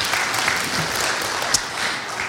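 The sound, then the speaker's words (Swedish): Appreciative applause from an audience at a sung performance, a steady, dense clatter of many hands clapping that holds at an even level throughout. “Ja, visst är de värda en applåd.”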